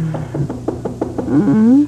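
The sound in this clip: Knocking at the front door: a quick series of light raps over a low steady hum, followed by a short spoken call.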